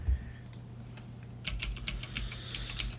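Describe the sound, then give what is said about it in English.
Typing on a mechanical computer keyboard. After a quiet stretch with a low steady hum, many sharp, bright clicks follow in quick, uneven succession. “To the Google machines on my mechanical keyboard.”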